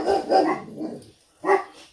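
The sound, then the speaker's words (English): Dogs bark a few times: a quick cluster of sharp, loud barks at the start, a softer one after, then a pause and one more strong bark near the end. “And that's my dogs.”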